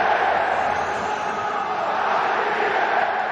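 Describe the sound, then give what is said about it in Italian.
Football crowd at San Siro roars in a steady, dense wall of noise for Lautaro Martinez after his twelfth league goal, which decided the Milan derby. The loud, continuous crowd sound holds without a break throughout. “Il eh, pubblico di San Siro che inneggia al toro Lautaro Martinez per eh, il toro dodicesimo gol in questo campionato”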